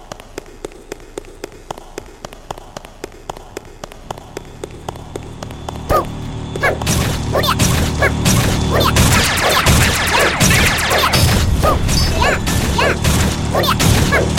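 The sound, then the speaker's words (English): Security carts attacking in a video game: many light, evenly spaced mechanical ticks, then a sudden crash that opens into dense, loud clattering of impacts and metallic bangs. “So yeah, these are the security carts. That's what these machines are. And what they can do is they can drive around, they can attack, and then they can go into the stealth mode,”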